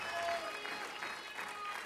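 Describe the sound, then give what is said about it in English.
A church audience clapping their hands during worship. The clapping is faint and steady, a soft continuous patter with no clear pauses. “If you love God, clap your hands and lift up a voice.”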